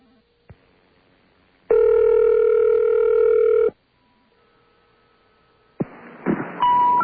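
Telephone dialing with carrier access code 10666 followed by 0: a click, then a loud steady dial-type tone for about two seconds, a pause with a faint hum, and noisy line tones ending in a higher beep.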